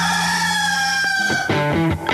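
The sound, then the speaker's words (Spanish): A rooster crows loudly in one drawn-out, harmonic-rich call that breaks into short pulses near its end. “¡Este es el gallo!”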